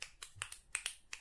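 Finger snapping in approval: a quick, irregular run of sharp, crisp snaps, fairly faint, with no talk around them.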